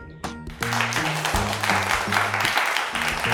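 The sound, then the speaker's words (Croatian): Applause greets a school broadcast made by fifth-grade students for World Teachers' Day. The clapping starts with a sharp burst and swells into a steady, dense wash over a low musical backing. “Ovo je naša prva emisija, pa molimo pljesak za nas.”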